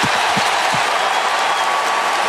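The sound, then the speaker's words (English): Stadium crowd roar at a college football game involving Louisville, following a kickoff return: a loud, dense, steady wash of cheering and applause that holds without a break throughout. “Well, the crowd's back in it, that's for sure.”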